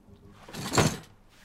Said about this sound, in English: Bitterly, he slams the drawer shut.